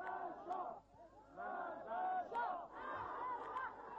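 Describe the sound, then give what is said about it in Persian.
A crowd chants slogans in unison during a funeral ceremony, with loud, rhythmic group shouting in repeated phrases, a brief dip between phrases early on, then sustained massed voices. “در جریان و بعد این مراسم شعارهایی داده شد”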